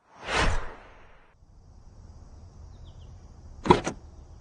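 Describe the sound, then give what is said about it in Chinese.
The left and right rear doors of a car being opened: two brief whooshing, rattling sounds, the first early on and the second near the end, with quiet between them. “这时候后车厢的左右车门被打开了，两个壮汉笑嘻嘻地坐了进来”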